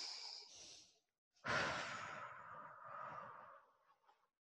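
A person taking deep breaths during a guided anchoring exercise: a softer breath, a brief pause, then a long, louder, airy breath that slowly fades, with no talking.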